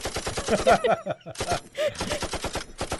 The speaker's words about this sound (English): So machine gun, then body splat.